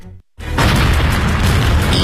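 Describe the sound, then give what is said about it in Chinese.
A loud explosion sound effect depicting a blast in newly liberated Shenyang in 1949 bursts in after a brief silence and rolls on as a dense, sustained roar. “1949年11月，沈阳迎来解放，但锦城的第一夜就发生了爆炸。”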